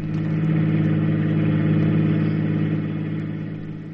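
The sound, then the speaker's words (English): A convertible car's engine during a ride hums steadily at a mid-low pitch with layered harmonic tones, loud and continuous, easing slightly in level toward the end. “Margaret took me for a ride in her convertible.”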